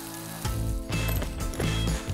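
Freshly roasted coffee beans, cooled slightly, being ground: a loud rasping mechanical grind with a ratchet-like texture, running in a few surging bursts with no voices.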